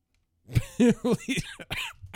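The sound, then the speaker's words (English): Coughing in a rapid series of harsh, loud bursts, one hack following another with short gaps and a rough, throaty edge. “Here comes the coughing.”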